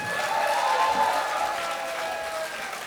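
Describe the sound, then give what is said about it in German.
Audience applause at a live music concert, a dense, steady wash of clapping hands that holds at an even moderate level for the whole stretch, with no one speaking over it. “Ein Applaus für den Daniel. Ein Applaus für den Michael.”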